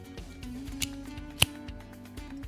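An Alec Bradley Max cigar is cut with a single sharp, faint snip over quiet handling noises and soft rustles.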